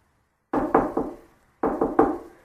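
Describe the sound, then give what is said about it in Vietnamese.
A bodyguard knocks on a door: two quick sets of three firm, hollow knocks separated by a short pause. Each knock decays quickly, with no voices. “Vệ sĩ gõ cửa.”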